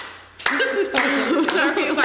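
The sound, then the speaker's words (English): A group of people claps three times in unison: loud, sharp claps about half a second apart, with voices mixed in. “No, that was an uncomfortable unison clapping segment. That was not planned.”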